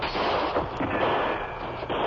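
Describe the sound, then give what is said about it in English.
Gunfire crackles from all sides of a building, a dense, continuous burst of overlapping shots and rumble with no pause, loud throughout the short stretch. “Shots come from every side of building.”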